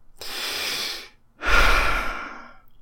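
Deep breathing from a person pausing before reading aloud a block of flavor text in a tabletop wargame: two long, airy breaths separated by a brief gap, the second fuller and louder, with no talking.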